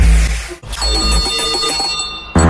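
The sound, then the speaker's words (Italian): Loud, bright ringing of a bell with a sustained metallic tone, briefly broken off and then resuming. “È suonata la campanella”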